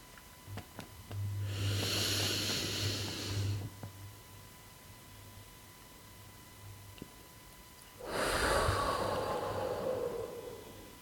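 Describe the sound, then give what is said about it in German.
A deep breath is drawn in, held silently for a few seconds, then slowly released during a guided breathing exercise. The soft inhale and the longer exhale are airy rushes with a quiet gap between them, and no one talks. “Und noch einmal tief einatmen, einen Augenblick halten. Und die Luft wieder ausatmen.”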